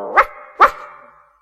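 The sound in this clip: Two sharp dog barks, evenly spaced about half a second apart, each loud and brief with a short ringing tail.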